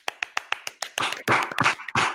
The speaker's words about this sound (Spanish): Aplausos.